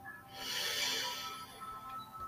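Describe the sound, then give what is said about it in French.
A person draws a long, hissing breath in through the nose that swells and then tapers into softer airflow, heard alone over a quiet steady background. “Inspirez par le nez, faites entrer l'air à l'intérieur de vous.”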